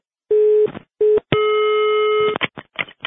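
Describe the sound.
Telephone busy tone sounding after a call is hung up: a steady low electronic beep in three bursts, two short and then one long, followed by brief crackling line noise.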